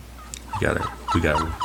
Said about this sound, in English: I got to get the turkeys back. Do you know how much cleanup we're going to have on this? I know. The turkeys went crazy.